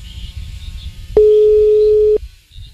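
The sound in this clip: Telephone busy signal on a call that goes unanswered: one steady mid-pitched tone, about a second long, that starts abruptly and cuts off cleanly over a low rumbling background.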